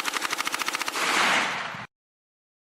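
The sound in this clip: Automatic gunfire from a 30-round magazine: a rapid, evenly spaced string of loud shots that blurs into a continuous roar, then cuts off abruptly into silence.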